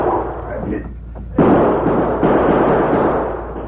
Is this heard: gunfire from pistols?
yes

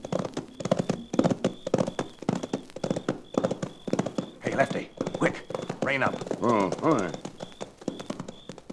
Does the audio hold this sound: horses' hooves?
yes

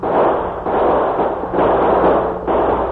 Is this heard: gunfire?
yes

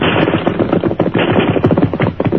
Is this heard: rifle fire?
yes

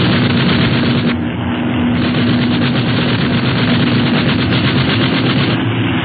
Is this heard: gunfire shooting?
yes

